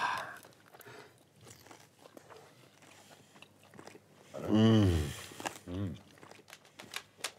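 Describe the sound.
Crunchy biting and chewing of a spicy dish, many small crackling crunches spread throughout, with a louder voiced exclamation in the middle and people talking around the eating.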